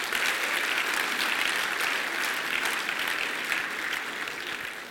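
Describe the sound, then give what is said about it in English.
Steady, dense applause from an audience cheering a Tuvaluan performing group at a Pacific Island night, clapping continuously without a break and easing only slightly toward the end. “Talofa, all the Tuvaluans here, let's give it up for that group tonight.”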